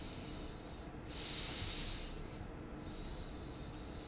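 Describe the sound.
A deep breath drawn in through the nose, heard as a faint, airy hiss that swells for about two seconds over steady background noise, then fades.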